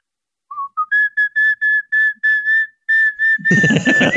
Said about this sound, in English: my bird's here in the house. He's upstairs and he's just whistling away to something.